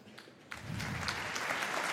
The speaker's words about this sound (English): Please give a very warm applause.